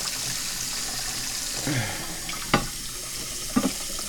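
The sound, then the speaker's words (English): Hot water poured over a teapot and its lid to preheat them: a soft, steady rushing wash, with a couple of light ceramic clinks near the end. “Let's preheat the teapot lid here. And we'll preheat the teapot.”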